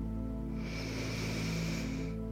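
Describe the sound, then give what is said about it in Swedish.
A long, airy inhale taken during a guided breathing and yoga exercise. It is soft and hissing and rises and falls over a couple of seconds against a sustained, humming musical drone. “Andas in.”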